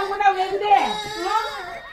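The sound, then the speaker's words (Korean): A young child crying and sobbing, with loud, wavering wails that rise and fall in pitch in uneven bursts throughout. “왜 울어?”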